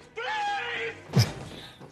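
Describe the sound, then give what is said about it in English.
Single heavy thud as a man throws himself bodily against a door in a film scene, a short loud impact that follows a raised voice and fades quickly. “So I love the way Mandy throws himself at the door here. Like, he's going to dislocate his shoulder.”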